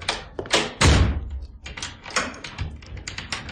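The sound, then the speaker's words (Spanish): A door being shut and locked with a key: a heavy thud amid a dense run of sharp knocks, clatter and rattling, with many uneven impacts continuing throughout. “Y cerró la puerta con llave.”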